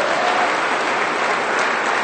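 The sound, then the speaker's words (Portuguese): Portuguese-speaking church audience applauding in praise of Jesus, a loud, dense and unbroken roar of clapping from many people that stays level from start to finish. “Dê um aplauso para Jesus, que Ele é digno.”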